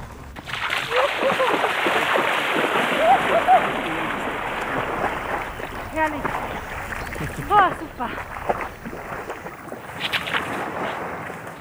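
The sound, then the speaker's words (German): Someone swims in the Danube off a sand and gravel beach in the Donauauen national park on a hot day, with irregular splashes and sloshing water running on over steady outdoor noise. “Also jetzt, wo wir da sind, ich gehe jetzt noch schnell in der Donau schwimmen.”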